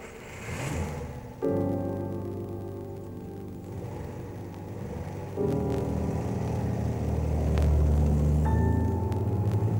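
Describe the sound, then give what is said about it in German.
A car engine starts, then a low rumbling traffic drone with steady humming tones builds up in a few distinct steps, growing louder toward the end. “Nach langen Minuten wird im Hintergrund ein Auto angelassen, dann etwas näher, immer näher, bis der Verkehr fließt und schlimmer.”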